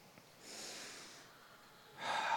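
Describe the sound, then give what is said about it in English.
Deep breathing during a guided relaxation moment in a spoken prayer: one long, soft, airy breath, then a louder, rougher second breath starting near the end, with no talking. “I'm going to invite you to take a couple of deep breaths with me.”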